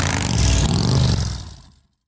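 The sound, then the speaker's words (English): A Harley-Davidson motorcycle engine revs in a loud, rough, throaty burst that holds for about a second, then quickly fades away into silence. “Everyone knows the best part of any promise is keeping it. Harley Davidson Motorcycles. Ride.”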